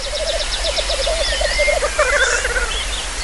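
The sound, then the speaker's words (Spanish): Male grouse-like birds call while displaying together at a lek: many rhythmic, pulsed notes repeat steadily, with thinner, higher-pitched calls layered over them. No voices are heard. “Y los machos, pues como los urogallos, se reúnen en LEC, en grupos donde cada uno se exhibe para que las hembras vengan y elijan al mejor. Y eso es lo que estáis oyendo.”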